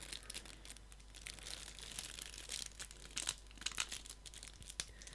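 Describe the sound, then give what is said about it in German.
Plastic foil wrapping on a deck of playing cards crinkles and crackles in many quick, irregular bursts, fairly quiet and without any talking. “Das ist doch die Folie. Es ist sehr viel Verpackung heute hier.”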